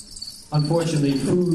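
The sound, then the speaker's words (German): Crickets from a zoo's population of live feeder insects chirp in a musical performance, keeping up a steady, high trill throughout. After a moment, louder low tonal sounds join in. “Seine tierischen Musikkollegen bekommt er von zoologischen Gärten gestellt, wie neulich in Berlin eine mittlere Grillenpopulation.”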